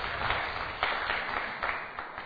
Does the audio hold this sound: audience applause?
yes